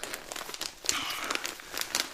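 Crinkling of wrapping paper as a wrapped gift parcel with soft contents is opened: many irregular, papery crackles and rustles, fairly quiet and continuous, with no voices.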